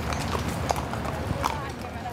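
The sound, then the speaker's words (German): Horses' hooves clip-clopping as riders pass through a large park in Rome, a few faint, scattered clops over constant background noise, with voices in the background. “Immer wieder kommen Reiter mit ihren Pferden vorbei.”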